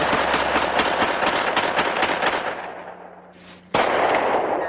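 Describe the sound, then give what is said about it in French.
Gunfire from target practice in a forest: many loud shots in rapid succession, then a short lull and one more sharp shot, with no voices. “Chez eux, les policiers découvrent un film où on les voit qui s'entraînent à tirer dans une forêt.”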